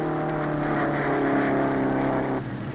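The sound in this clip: Roaring engines of jalopy race cars starting a race, a loud, steady droning blend of engine tones that holds at full strength before dropping off sharply near the end.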